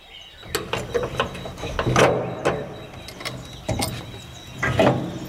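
A museum door is opened with a series of sharp mechanical clicks, rattles and clunks, several louder knocks standing out among the lighter ticking, with no talk.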